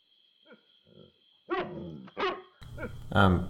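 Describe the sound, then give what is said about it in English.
A neighbour's dog barks three times, sharp and fairly loud, after a few seconds of quieter low sounds, with no talking over it. “Sorry. That's the neighbor's dog.”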